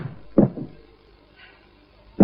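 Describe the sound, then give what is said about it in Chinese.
A door is slammed shut, heard as a few sharp, heavy thuds, one near the start with a smaller knock right after and another at the end, separated by near-silence. “你摔门干什么？”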